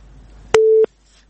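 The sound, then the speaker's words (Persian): A telephone busy tone after a call is cut off: one steady mid-pitched beep lasting about a third of a second, with a sharp click at its start and end, then quiet line noise. “متاسفانه تماس اینا قطع شده”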